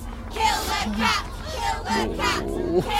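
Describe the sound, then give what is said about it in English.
Angry crowd shouting in a street below a steep roof, threatening to throw stones: many raised, overlapping voices in a continuous clamour with repeated surges in loudness. “He can hear the crowd and he is frightened that they will throw stones at him.”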